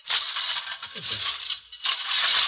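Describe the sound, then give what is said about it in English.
A push lawn mower with a dragging grass catcher cuts grass, giving a steady, high-pitched whirring clatter that briefly dips midway before continuing. “Cutting your grass? Yes, Julius, I'm cutting the grass.”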